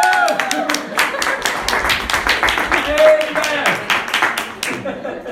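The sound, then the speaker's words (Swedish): Congregation cheering and clapping at a church lesson: dense, rapid applause with raised voices runs steadily throughout, easing off just before the end. “Och nu jublar vi.”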